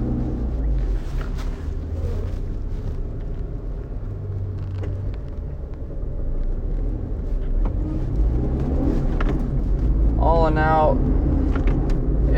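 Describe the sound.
Steady low rumble of a car on the road, with the engine and road noise droning evenly throughout and some wind buffeting on the microphone, getting slightly louder in the second half.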